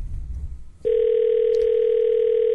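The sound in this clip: A telephone dial tone cuts in abruptly after a low rumble and holds as a loud, steady, unbroken hum at one pitch as a call is about to be dialed.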